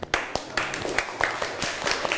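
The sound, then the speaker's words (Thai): Students in a classroom clap to encourage their classmates, a loose run of sharp, uneven claps over a steady background murmur, moderately loud throughout. “เดี๋ยวเราปรบมือให้กำลังใจเพื่อนหน่อยค่ะ”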